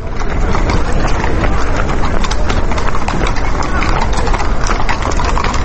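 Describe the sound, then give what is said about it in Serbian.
Hooves of mounted police horses clatter on a city street as the cavalry withdraws around 11 pm after street clashes, a loud, continuous stream of many hoof strikes mixed with voices. “Već oko 23 sata policija je odlazila, konjica se povlačila”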